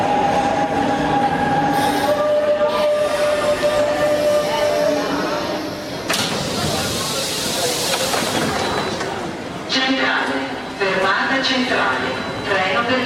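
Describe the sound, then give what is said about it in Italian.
A Milan metro train running underground, with a loud continuous rumble, high squealing wheels, tonal whines and rattling clatter over about thirteen seconds, and indistinct voices at times. “E questa è la voce della metropolitana milanese.”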